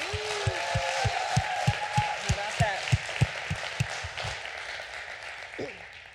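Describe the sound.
A church audience at Salem Fields applauds to welcome a speaker, a steady dense wash of clapping over a regular low thumping pulse, with a voice briefly heard above it.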